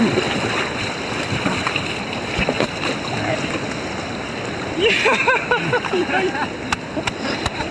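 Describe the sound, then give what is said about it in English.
Whitewater roar as a boat runs down river rapids: a loud, steady rush of churning water across the whole clip, with a brief voice rising over it partway through. “That is gnarly, man. Those rapids are just good fun if you don't die.”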